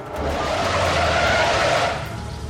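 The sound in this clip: A car brakes hard and skids to a stop, its tires letting out a loud, harsh screech that holds steady for about two seconds before trailing off.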